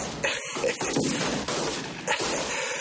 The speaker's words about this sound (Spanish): Todos se disparan entre sí, mientras Rich está en la habitación con Rick.